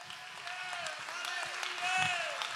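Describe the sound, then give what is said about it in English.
An audience clapping hands in a church sanctuary during a sermon, a soft, steady patter of many hands that swells slightly toward the end. “Somebody clap your hands. Somebody lift your voice.”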